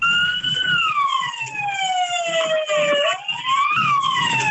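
A fire truck siren wails at a highway toll booth. The loud electronic tone slides slowly downward, rises sharply, then starts to fall again, over a low rumble of vehicle noise.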